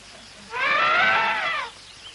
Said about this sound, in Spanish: elefante se acerca hasta él.